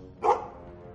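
A dog gives one short, sharp bark that stands out against a quiet background.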